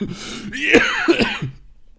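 Harsh, throaty coughing after choking on something swallowed the wrong way, several loud barking coughs in quick, uneven succession with no talk over them.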